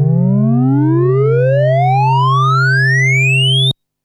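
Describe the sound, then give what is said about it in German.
An analog synthesizer cross-modulation demo with two sine-like VCOs. One holds a steady low tone while the other glides smoothly and continuously upward, the beating tones staying loud throughout before cutting off abruptly. “Ich lasse den einen VCO, den Carrier, auf einem konstanten Ton und stimme den anderen VCO langsam nach oben. Beide VCOs geben eine sinusartige Kurvenform ab.”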